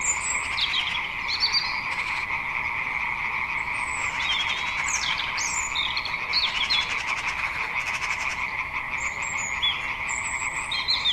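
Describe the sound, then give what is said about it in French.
Frogs croak in a dense, continuous chorus by wetland ponds, old fish-farming ponds, on a spring afternoon. The croaking stays steady and moderately loud throughout, with no voices. “printemps oblige, les grenouilles s'en donnaient à cœur joie et en plein après-midi.”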